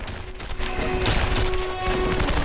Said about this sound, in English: They jump back onto their feet and retaliate with a barrage of bullets.